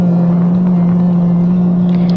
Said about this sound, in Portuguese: Liftoff of Progress 83, the next vehicle in the supply chain to the International Space Station.